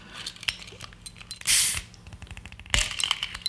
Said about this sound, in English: Oh. I gotta get a better bottle opener. That was okay.